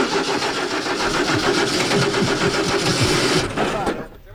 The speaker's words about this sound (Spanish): esta noche cuando vayan a subir al avión, el sonido que van a escuchar es este.